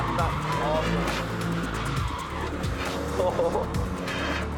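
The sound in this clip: A car engine revs hard under power while drifting with the handbrake, its front bumper already missing. Loud, continuous engine roar mixes with scrubbing tire squeal and skidding throughout, with a low rumble that rises and dips.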